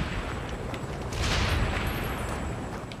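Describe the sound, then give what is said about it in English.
Frag grenade explodes in a multiplayer shooter video game, a muffled boom with noisy rumble that swells about a second in and then lingers as a broad roar. “Oh, frag grenade. Fuck. Terrorism. Oh, another frag grenade.”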